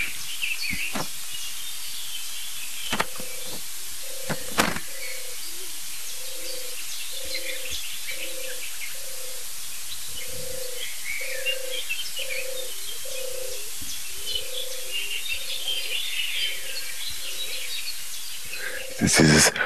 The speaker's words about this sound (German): Und im Hintergrund, ganz dumm, hören wir die nächste Spezialtaube.